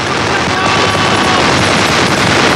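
Detonation and gunfire sound effects from a war drama ambush on a column of German soldiers: a loud, unbroken roar of explosion and rapid gunshots fills the whole stretch without a pause.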